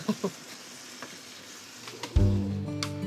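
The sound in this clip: A roast sizzles while frying in a pan. A few faint clicks come first, then a loud, steady sizzle starts abruptly partway through and carries on to the end.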